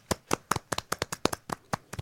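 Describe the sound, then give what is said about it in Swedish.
Crisp, irregular handclaps from a small group applauding child actors, a quick run of separate claps at a moderate level with no voices over them. “Applåd för barnskådespelarna.”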